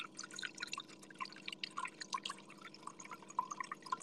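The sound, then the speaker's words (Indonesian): Quick, irregular drips and small bubbling plinks of water from a running water generator, many tiny bright taps close together at a fairly low level. “Ini adalah suara generator air.”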